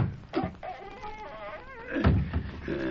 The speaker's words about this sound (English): Well, here's the trapdoor. Good, open it up.